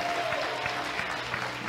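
Audience applause fills a Christmas church gathering: dense, steady clapping from many hands that holds at an even loudness for the whole stretch, with no voices standing out.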